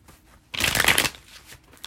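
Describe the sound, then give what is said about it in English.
A deck of cards being shuffled before drawing one more card, a single brisk, fairly loud riffle lasting about half a second, with near silence on either side. “So I'm just going to get one more card and then wrap it up.”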